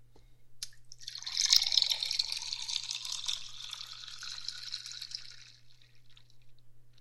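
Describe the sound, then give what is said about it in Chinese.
Water is poured into a glass for someone to drink, making a soft, continuous trickling and splashing. The pour lasts several seconds and then tapers off quietly, with no talking. “你渴不渴啊？我给你倒点水喝吧”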